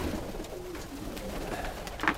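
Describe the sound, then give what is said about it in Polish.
Pigeons cooing in a pigeon loft where each pair has its own breeding cell: soft, low, throaty coos over a steady rustling background. “Te gołębie o tutaj mają każdy swoje cele i tu się mnożą w tym.”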